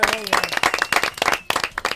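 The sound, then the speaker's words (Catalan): Applause for everyone after a family game session, with bursts of sharp, scattered claps mixed with lively voices and cheering. “Un aplaudiment per tots.”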